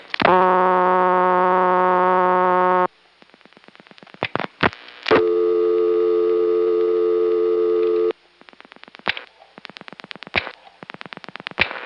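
Telephone line audio of a call to a Centrex number with electronic switching system ring: two long, steady, buzzy ring tones, each followed by irregular bursts of clicks and short crackles.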